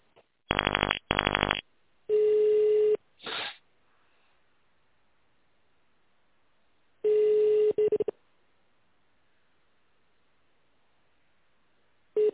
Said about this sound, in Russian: Если вы знаете внутренний номер сотрудника, наберите его в тоновом режиме.